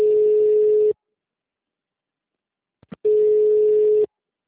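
Telephone tones while a call is transferred to a customer-service agent: two steady, identical beeps about a second each, separated by roughly two seconds of silence, with a couple of faint clicks just before the second tone.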